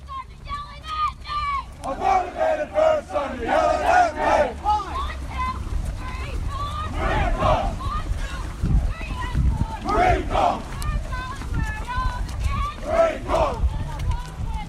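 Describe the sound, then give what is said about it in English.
Hundreds of Marines on a formation run call cadence together, voices chanting in strong rhythmic unison, phrases rising and repeating in a steady beat that swells louder after the opening seconds. “Hundreds of Marines out on a formation run, calling cadence and moving in unison.”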